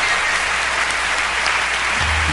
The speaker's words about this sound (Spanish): Dale un aplauso de alabanza al Señor.